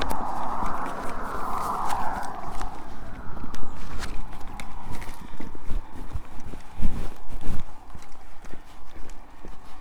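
Footsteps of a person walking near a major road: many uneven, sharp footfalls in a loose rhythm over a rumbling background.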